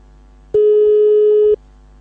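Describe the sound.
A telephone line tone sounds while calling for a TV repair: one steady, sustained tone lasting about a second, starting and stopping abruptly. A faint low hum is present before and after it, and no one speaks.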